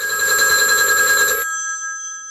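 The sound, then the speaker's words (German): A telephone bell rings for a call from London to Bordeaux: a bright, loud metallic trill holds for about a second and a half, then cuts off and leaves a fading ringing tone. “Der französische Unterstaatssekretär Charles de Gaulle ruft von London aus Premierminister Paul Reynaud in Bordeaux an und liest ihm am Telefon den Text vor.”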